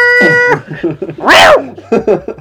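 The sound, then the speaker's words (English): A cat gives a single loud, drawn-out meow midway through, between stretches of people talking. “Get your cat out of my room!”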